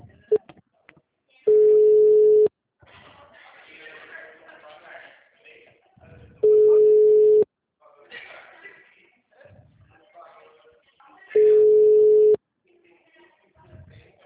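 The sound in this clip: Telephone ringback tone heard while a call waits to be answered: three long, steady, mid-pitched tones, each about a second, evenly spaced roughly five seconds apart, with faint voices and rustling in the gaps between them.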